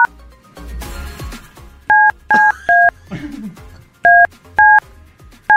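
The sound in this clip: Touch-tone keypad buttons pressed hard to dial a phone: several short, sharp dialing beeps in quick clusters, mixed with clattery handling noise and brief talk between the tones.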